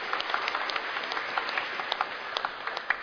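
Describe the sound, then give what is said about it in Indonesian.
A church audience applauding during a Sunday service: scattered individual claps ring out sharply over a light, continuous bed of clapping, uneven in rhythm. “Dan Opa Oma dari Rumah Kafel, mari kita kasih aplaus sekali lagi untuk dua pelayanan hari ini.”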